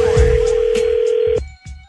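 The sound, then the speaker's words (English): Telephone tone for an incoming call: a steady, even electronic tone holds for over a second, then cuts off, followed by a few short, softer sounds. “I'd be careful answering that call. It could be another Z Morning Zoo phone scam.”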